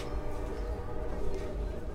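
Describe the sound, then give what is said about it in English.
A train rumbles past outside a Union soldier hospital with a low, steady, continuous drone that holds at an even loudness throughout. “A train rumbles by as I walk outside a Union soldier hospital.”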